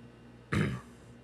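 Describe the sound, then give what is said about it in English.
A man clears his throat once in a short, rough, gravelly burst that fades quickly, with faint background hiss before and after. “cleared his throat”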